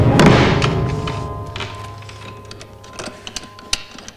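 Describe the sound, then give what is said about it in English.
A piano lid thuds shut with a dull knock, followed by a few small clicks and taps as it is locked with a key. “With a determined look, she rushes to the piano and closes the lid, locking it shut.”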